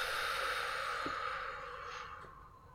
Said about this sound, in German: Atme durch den Bauch ein und lang aus.